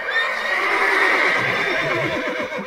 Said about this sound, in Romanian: Claus cel Mic se bucura și se gândea ce bine că are cinci cai la plug! Cinci cai!